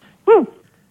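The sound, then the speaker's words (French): A dog heard over a phone line gives one short, whining bark with a rising-then-falling tone, loud and alone between faint line noise. “Ouh. Ils ont un chien.”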